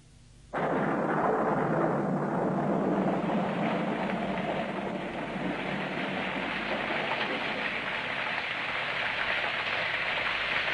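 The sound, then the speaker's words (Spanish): Heavy, continuous rain beats on church windows, a dense unbroken hiss that starts abruptly and holds at a steady loud level throughout, with no voices. “Lluvia densa y continua batía las cristaleras de la iglesia.”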